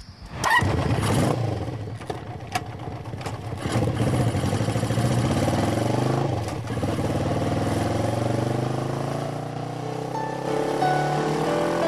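A motorcycle engine starts and runs through a ride as a continuous rough, buzzing drone, with a few sharp clicks early on and a rising pitch toward the end as it speeds up.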